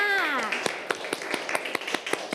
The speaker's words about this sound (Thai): ไม่มีงานค้างนั่นเองอ่ะปรบมือให้กับทั้งสองคนค่ะ